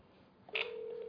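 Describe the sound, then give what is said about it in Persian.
A telephone ring tone sounds on a redial after an unanswered call. One steady, clear tone starts about midway and holds to the end, with no talk. “خب این که جواب نداد دوباره تماس بگیریم.”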